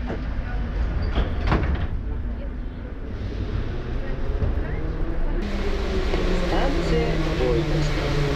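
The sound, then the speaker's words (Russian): Sliding doors of a metro train closing over the train's steady, loud rumble. A sharp burst comes near the start, and the noise turns brighter and fuller in the second half. “Осторожно, двери закрываются.”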